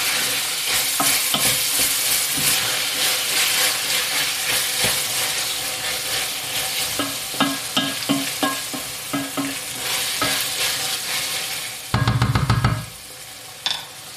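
Meat, onions, lard, tomato paste and spice powder fry in a pan with a steady sizzle, broken by repeated scrapes and knocks of stirring and a brief, louder burst of sizzling near the end.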